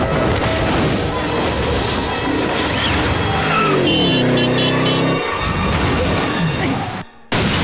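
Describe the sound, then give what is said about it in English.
Heavy crash as a man falling under a half-open parachute smashes through an office window and lands on a desk, set within a dense, roaring mix of impacts and engine-like rumble that cuts briefly to silence near the end. “smashes through the window of an office, landing with his back on a desk.”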